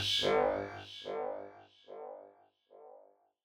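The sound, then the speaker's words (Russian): A stretched spoken word echoes as an audio effect, repeating a few times, each copy fainter and more smeared than the last until it dies away. “Последнее слово странным образом растянулось и отдавалось как эхо.”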